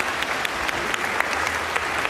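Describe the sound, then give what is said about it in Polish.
An audience applauds the dancers at a live performance with steady, moderately loud clapping, and scattered sharper claps stand out from the continuous patter. “Brawo dla wszystkich tancerzy. Brawa.”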